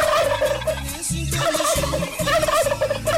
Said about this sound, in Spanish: nosotros no tenemos el canario aquí, nosotros lo que tenemos es el pavo